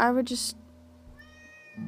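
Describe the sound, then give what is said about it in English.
A pet cat meowing repeatedly, giving a few short, clear cries close together in a brief moment. “Also, this is my cat Sasha. She's meowing a lot.”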